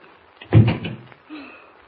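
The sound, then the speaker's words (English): A door shuts with a single dull, moderately loud thud, followed a moment later by a fainter, brief sound as it is locked. “Please open the door quick. Come in. Close the door quickly and lock it, will you?”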